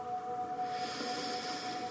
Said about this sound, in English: I want you to take a nice deep breath in.